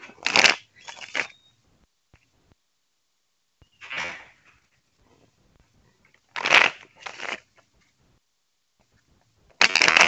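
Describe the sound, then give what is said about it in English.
Tarot cards being shuffled and drawn, heard as a few short papery, crunchy bursts of riffling separated by quiet pauses, some coming in quick pairs, with no talking. “Draw a couple more cards.”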